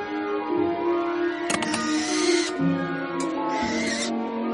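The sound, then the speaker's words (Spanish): An owl bringing mail to a house gives a low, steady hooting tone, interrupted by two harsh, noisy bursts that sound like screeches or flapping. “se acerca otra lechuza a Privet Drive y deja la correspondencia en la casa de los Darsley”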